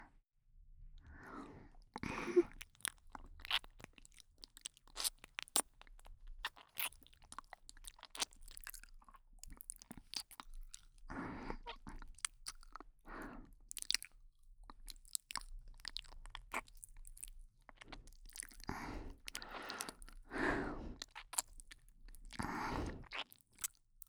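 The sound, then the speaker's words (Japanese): Wet licking mouth sounds of a tongue and lips working close at a listener's ear, soft and moist, in irregular clusters of smacks and slurps with short pauses between, no talk. “まだ舐め残しがあるかもしれませんから、もう一度舐めさせていただきますね。”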